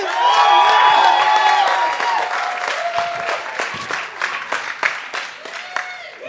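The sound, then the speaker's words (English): A standing ovation for a speaker: loud applause from a crowd, with cheers and whoops at the start, then the clapping thins and softens somewhat toward the end. “So would you give a nice, warm, family welcome, standing ovation to my friend and yours”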